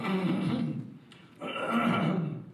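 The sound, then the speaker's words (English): Throat clearing acted out by a voice: two rough, gravelly rasps separated by a brief dip, both fairly faint and low. “he cleared his throat”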